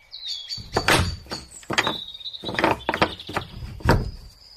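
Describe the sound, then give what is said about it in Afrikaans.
A door to a dark room is shut and locked. Squeaky, high-pitched hinge creaks run over several heavy wooden knocks and rattles at moderate loudness, with no voices. “Die deur word gesluit en daar sit sy.”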